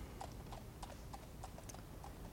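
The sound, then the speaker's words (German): Hooves of a horse-drawn tram clip-clop in a steady, even rhythm, faint and heard alone. “Ich muss hier auf meine Pferdebahn warten.”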